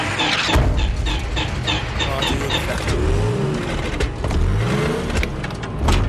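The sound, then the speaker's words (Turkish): A car engine, cold and with condensation on its spark plugs, revs hard, its pitch surging up and sliding back down several times in loud, uneven bursts. “Çalıştır bakayım. Motor ısıt, soğumuş. Bujilerde yoğunlaşma var.”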